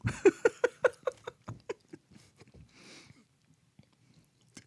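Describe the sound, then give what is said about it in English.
Food is chewed with crunchy bites in a fast, regular rhythm, loud at first and gradually growing fainter and sparser until only a few soft mouth sounds remain. “Chew it up.”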